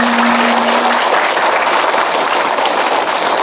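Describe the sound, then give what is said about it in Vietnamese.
Audience clapping in a dense, even patter that runs without a break, sounding muffled and dull with its brightness cut away. “Đừng giả bộ vỗ tay để thoát bài kia nha.”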